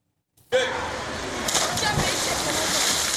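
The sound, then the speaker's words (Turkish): Children splashing in a public swimming pool during free summer swimming lessons, a continuous wash of sloshing water and splashes with voices mixed in, staying fairly loud throughout. “Sıcak yaz günlerinde havuzlarda serinleyen çocukların neşesi ise görülmeye değer.”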